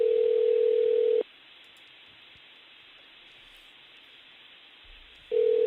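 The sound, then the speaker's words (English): A telephone dial tone opens a 2007 in-car emergency call recording: a steady, unbroken mid-pitched tone for about a second, then faint line hiss, before the tone returns briefly at the end. “So there was also a 911 call, an OnStar call from 2007. We've got the audio here.”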